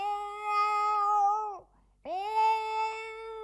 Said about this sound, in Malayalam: ദേ നോക്കി, കുടിയിൽ ആരോ ഒളിച്ചിരിക്കണ. ഇതാ ഇവിടുത്തെ ഒരു പൂച്ചയാ.